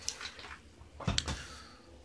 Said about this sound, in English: I'll take a sip of water on that note. Several, actually.